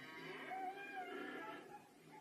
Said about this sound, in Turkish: İnek kaçmalı bir filmden görüntü çalmışlar.